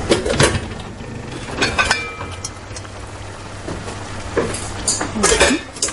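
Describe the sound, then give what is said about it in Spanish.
Dishes and cutlery clink and clatter as dinner is prepared in a kitchen, with scattered light knocks and chinks at an irregular pace, fairly soft. “Más tarde su hermana prepara la cena”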